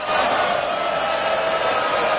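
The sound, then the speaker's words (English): Booing from a crowd at a political event, aimed at the media: a dense, continuous mass of voices holding at a steady, fairly loud level with no clear breaks. “Boo. They're booing her. Are they booing her? Yeah. Oh, no, they're booing the media. Goddamn media.”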